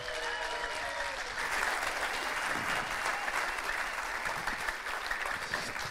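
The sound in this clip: A church audience applauds to welcome a guest preacher, dense, steady clapping that fills the whole six seconds and swells slightly after the first second, with no talk over it.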